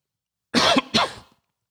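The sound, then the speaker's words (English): Two sharp coughs in quick succession come from someone choking after a vodka and energy drink went down the wrong way. The second cough is weaker and trails off, with no talk over them. “excuse me, something went down. I have some ice in my mouth. I'm drinking a Tito's and Bang energy drink, and some of it went down wrong.”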